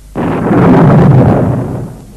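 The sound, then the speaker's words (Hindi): Thunder during heavy rain breaks in as one sudden, loud, deep rumbling boom that rolls on for nearly two seconds before fading, with no voices. “इतनी वर्षा, बिजली कड़क रही है, बादल गरज रहे हैं।”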